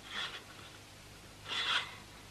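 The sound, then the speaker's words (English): Curtains being drawn open make two faint, soft swishing rasps, the second a little longer and louder, over a quiet background hiss. “Here we are. I'll draw the curtains.”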